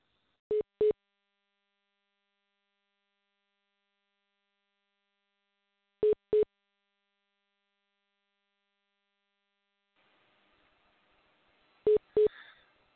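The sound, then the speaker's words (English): Telephone line tones during a call that keeps cutting out: three pairs of short, steady low beeps, spaced about five seconds apart, with faint noise around the final pair. “Sorry about that. The phone just cut out again. I apologize.”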